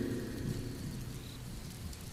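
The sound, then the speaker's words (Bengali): Heavy rain during a thunderstorm: a dense, steady hiss of downpour runs throughout, with a continuous low rumble underneath. “শীতল পরিবেশ আকাশ জমিন কাঁপিয়ে দিল বজ্রপাত বৃষ্টিটা শুরু হয়েছে সেই বিকেল দিয়ে”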